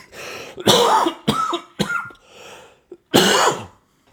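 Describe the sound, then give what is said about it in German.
Harsh coughs and throat-clearing in an irregular fit of several loud, rough bursts of uneven length, with no speech in between. “So ein Huster hier. Aber ich schneide es nicht weg.”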